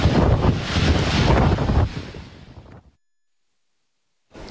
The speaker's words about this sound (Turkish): İtalya'nın Sicilya adasına hortum vurdu. Hortum önüne kattığı araçları dört bir yana savurunca bazı noktalar araba mezarlığına döndü.